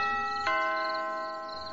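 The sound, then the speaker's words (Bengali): A doorbell ringing in the house next door: a steady, bell-like chime with a single sharp strike partway through, then a sustained tone that slowly fades. “সন্ধে হয়ে আসছে, পাশের বাড়িতে কেউ যেন calling bell বাজালো,”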